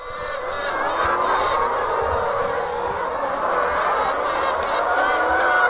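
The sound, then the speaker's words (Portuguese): Clucking of nearly 1,800 free-range laying hens at an egg farm merges into a dense, continuous chorus. It stays steady and fairly loud throughout, with no single call standing out. “Fomos recebidos com uma verdadeira sinfonia pelas quase 1.800 galinhas.”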